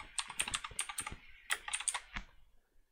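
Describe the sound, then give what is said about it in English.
Typing on a computer keyboard: a quick run of many light, crisp key clicks in an uneven rhythm, faint and with no talk. “Hit the wrong key there, it did something.”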